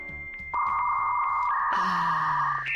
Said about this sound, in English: This is the sound of a computer trying to connect to the internet over a telephone line.